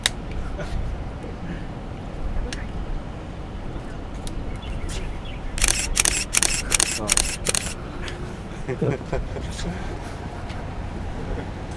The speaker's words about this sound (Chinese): 那是对焦声。 是快门声啊。